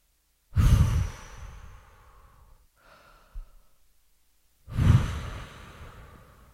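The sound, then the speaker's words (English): Deep, slow breathing led by a host at the start of a session: two long, loud breaths, each lasting about two seconds, with a softer, shorter breath between them and no talking. “Let's take some deep breaths.”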